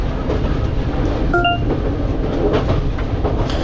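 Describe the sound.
A train runs in a train simulator video game with a steady, loud, low rumble and faint clatter, broken once by a brief electronic beep; no one speaks.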